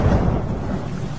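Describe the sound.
Heavy rain pours with thunder, a dense, loud roar with a deep low rumble that holds steady through the short stretch.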